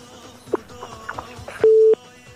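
A steady, mid-pitched line tone after a phone call cuts off, loud and lasting about a third of a second. A few faint, brief sounds come before it.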